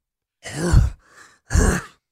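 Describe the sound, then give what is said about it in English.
Grunting sound effect from a video game character: two deep, voiced grunts with a softer, breathy sound between them. “that was Donkey Kong getting it on, by the way.”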